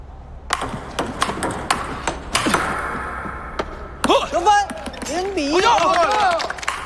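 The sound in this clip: A table tennis ball bounces during a serve by a Dongning team player in a match: several sharp, high pings in quick succession, followed by a commentator speaking.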